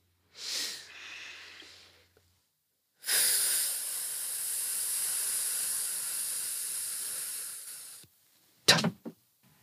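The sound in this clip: A group of people breathing in deeply together during a speaking and presentation warm-up exercise. A short airy breath comes first, then a long, steady hissing inhale lasting several seconds, followed by a couple of brief, sharp puffs at the end.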